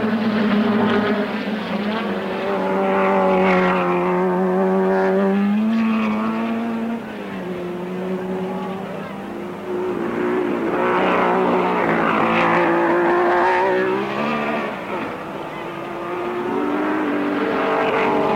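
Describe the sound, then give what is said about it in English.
Racing cars, including a Ferrari, on a race lap: a loud, sustained engine roar whose droning pitch repeatedly rises and falls across the whole stretch, with no talk. “End of the first lap, and Stirling Moss is in front, but he'll need all his driving skill if he's to hold off Phil Hill in the Ferrari, who's only a few seconds behind.”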